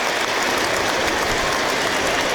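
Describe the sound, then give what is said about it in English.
Crowd applauding around a football ground during a minute's applause in tribute, a broad, continuous wash of clapping from a large stadium crowd that stays level and unbroken. “So applause ring out around the ground for those no longer with us, in a mark of respect.”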